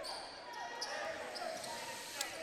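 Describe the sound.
A basketball dribbled on the court during a Lexington vs Wadsworth game at Orrville: a few faint, evenly spaced bounces over steady background noise.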